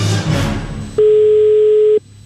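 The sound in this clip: A telephone ringing: one loud, steady electronic tone lasting about a second, following softer background sound and then cutting off to near quiet.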